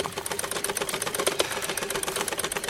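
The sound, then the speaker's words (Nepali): Rapid, steady mechanical clatter from a sewing machine running again after nearly three years of disuse and a repair. The stitching rhythm stays fast and even throughout, with no voices. “धेरै पछि सिलाइ मेसिनको आवाज सुन्ने”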